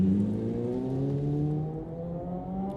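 A Suzuki 600 LCR sidecar racing engine, ridden by a Belgian pairing, drones steadily. Its pitch climbs gradually as the machine pulls away.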